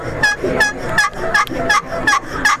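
A hand-operated turkey call plays a series of about seven sharp, evenly spaced yelps, each a short nasal note, the call choked down to soften its tone.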